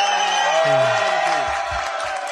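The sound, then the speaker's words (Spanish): Applause and cheering from an audience, loud clapping mixed with whoops and shouting voices that eases off a little toward the end. “Sí, un aplauso, ¡vamos!”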